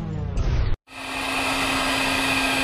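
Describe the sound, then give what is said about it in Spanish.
Loud, steady whirring of a giant blender, a broad motor roar with a constant hum underneath, starting after an earlier sound cuts off abruptly and continuing without voices. “No, se transformó en... ¿una licuadora gigante?”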